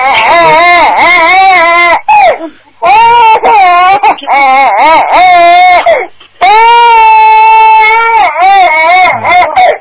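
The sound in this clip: Loud, sustained baby crying in three long wailing stretches, each with wavering pitch, separated by brief gasping pauses for breath.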